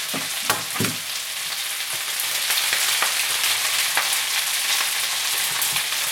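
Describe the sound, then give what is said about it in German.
Egg scrambling and frying in a pan: a continuous bright sizzle with a few sharper scraping stir strokes, steady and loud, with no talk. “Ich mache jetzt noch das Ei mit dran. Wie gesagt, das mache ich mit dem Rührei.”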